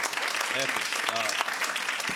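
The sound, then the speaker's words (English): A quiet round of audience applause for a contestant in a comedy news quiz game. The clapping is steady and continuous, with a couple of brief voiced whoops rising above it. “People, can you give her a round of applause?”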